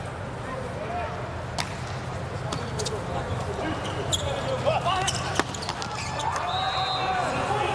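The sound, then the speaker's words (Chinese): A volleyball serve in an arena lands as a sharp, brief smack against a steady background of crowd murmur, with a few other light thuds and squeaks scattered around it. “贝里尔汉发球”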